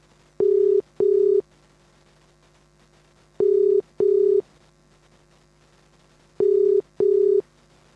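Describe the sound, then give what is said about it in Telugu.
Telephone ringing tone heard while redialing a dropped call: three pairs of short, steady, single-pitch tone bursts, each pair separated by a long pause, with no voices. “Call ఎందుకో drop అవుతుంది మళ్ళీ ఒక్క నిమిషం నేనే call చేస్తున్నాను”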